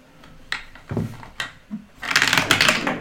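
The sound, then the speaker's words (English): An eight-sided die drops through a dice tower, giving a few sharp wooden clacks as it knocks down inside, then a dense, rapid clattering rattle in the final second as it tumbles out and settles. “Okay, I'm going to use Leah's dice tower.”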